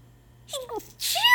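A single allergy sneeze bursts out sharp and loud near the end, preceded by a brief wavering vocal intake, with no talk around it.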